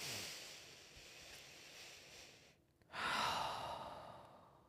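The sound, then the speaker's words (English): A deep breath is drawn and let out as a soft, airy sigh. There is a brief pause, then a stronger breath follows. Both are faint, with no talking. “And I promise, just in that moment, just take a deep breath.”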